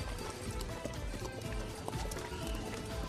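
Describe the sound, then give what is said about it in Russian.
Horse hooves clip-clop steadily beside a shopping centre, where a horse with a rider in hussar uniform gives children rides; the hoof beats are faint and even within a constant background hum. “мальчик уже смотрит на лошадь, которая возле торгового центра катает детей”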